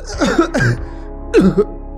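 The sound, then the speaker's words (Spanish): A man coughs hard in three harsh, throaty bursts, two in quick succession followed by a short pause and a final loud hack. “Empezó a toser fuertemente, muy convincente.”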